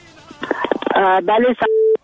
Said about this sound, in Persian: یک تماس البته وصل می سازیم که یک شماره را فقط انتخاب کنن